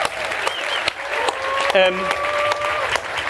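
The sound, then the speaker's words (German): Applause from a live audience, a steady spread of clapping with voices talking over it. “Applaus.”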